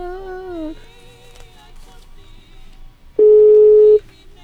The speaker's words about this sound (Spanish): para marcarle por teléfono a esta personita y esperar a que se enlace la llamada telefónica. Una vez que se enlace la llamada, la sacamos al aire, ya se enlazó.